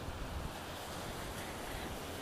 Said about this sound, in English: and I can feel the wind. It's pretty strong right now.